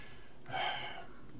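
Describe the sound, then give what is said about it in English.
One short slurping sip of a drink, a soft breathy rush lasting about half a second, alone against a quiet background. “Another sip. I'm trying to keep my throat lubricated here.”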